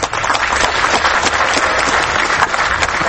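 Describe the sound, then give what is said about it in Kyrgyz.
A hometown audience applauds a film award winner as the prize is received, giving thick, continuous clapping that stays loud and even from start to finish. “Анткени өзүмдүн мекенимде өзүмдүн мекендештерим кол чабыс астында ушул байгени алып атам.”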